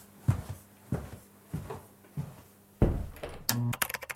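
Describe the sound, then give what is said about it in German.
Clunky clicks and knocks of a button being pressed to start a recording: several spaced thumps, then a denser burst of rattling clicks at the end, with no voices. “Ja, drück hier auf den Knopf und dann kriegen wir das schon irgendwie hin.”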